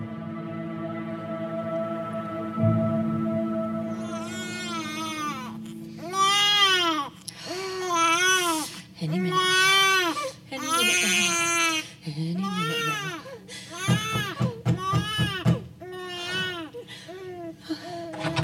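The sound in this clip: A teething baby cries upstairs in repeated loud, high wails that come in many bursts, over a steady low drone.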